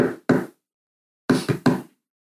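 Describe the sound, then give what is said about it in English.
Knocking on a door: five sharp, loud knocks, two spaced raps, then a pause, then three quicker raps in a row, with silence between and no talking. “So y'all start knocking on the doors, except Lorthamar.”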